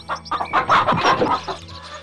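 Clucking of a jungle fowl hen sitting on eggs in its nest: a quick run of many short, throaty clucks in an irregular rhythm, fairly loud, tailing off softer at the end, with no voices.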